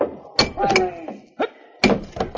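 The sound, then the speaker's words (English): An axe strikes a locked door to break the lock, giving a few heavy, dull thuds at uneven intervals, with brief ringing tones between blows. “You're locked in. I'll have to break the lock. Let me get an axe.”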